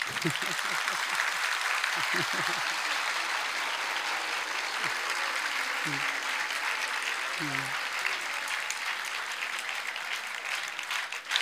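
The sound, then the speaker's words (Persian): Sustained audience clapping fills the whole stretch as a dense, steady wash of applause. Brief voices call out over it at a few points. “یا دست بزنید.”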